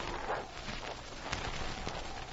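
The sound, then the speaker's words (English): Footsteps of a man walking up to the back door of a sleeping camp: a few soft, scattered steps over a steady wash of background noise. “Jim started for the back door, alert for any sign of life in the sleeping camp. There was none.”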